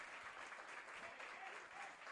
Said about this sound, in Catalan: Marxa Ricky D'Antonio que s'aporta una gran ovació.